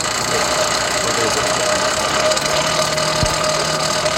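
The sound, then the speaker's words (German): Steady whirring drone from an old forge blower driven by a bicycle rear wheel, loud and continuous with a constant low hum and one brief low thump near the end. “Was man hier gerade ganz wunderbar hört, ist diese wunderschöne alte Esse, die wir haben. Die, habt ihr das schon beschrieben, mit einem alten Fahrradhinterrad angetrieben wird.”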